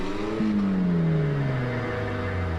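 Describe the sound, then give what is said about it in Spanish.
A manual-transmission car engine drones loudly. Its tone jumps up as it catches early on, then slides slowly and steadily down in pitch over a continuous rumble. “Puso una velocidad y prendió el motor. El motor aceleró hasta 6.000 revoluciones por minuto y avanzó dando tumbos.”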